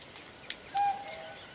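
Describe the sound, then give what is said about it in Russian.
A cuckoo calls during a film scene near tourists camped by a tent and campfire, a short mid-pitched note ringing over a steady background hiss. “Девушка, услышав кукушку, смотрит вдаль. Кукушка, кукушка, сколько мне жить?”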